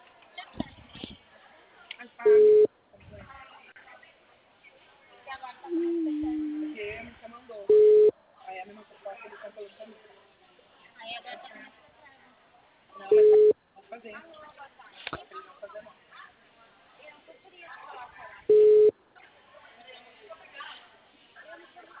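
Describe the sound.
A telephone line tone on a call that is not connecting sounds four times at even intervals. Each is a short, steady mid-pitched beep heard under continuous talk and background noise.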